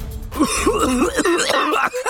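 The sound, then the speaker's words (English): Gagging, strained coughing and throat-clearing from a macaque choking on a swallowed apple core, voiced by a person imitating the struggle as a continuous, wavering, loud vocal sound. “He accidentally swallowed the apple core. Can't breathe! Help! My throat! It hurts!”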